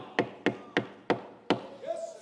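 Five sharp, firm knocks on a door, loud and evenly spaced with short gaps between them, then quiet.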